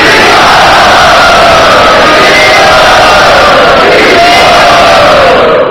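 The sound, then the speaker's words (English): A crowd loudly chanting Hari Bol as a greeting: a dense, sustained roar of many voices at full volume from start to finish. “Everyone, please greet him by loudly chanting Hari Bol.”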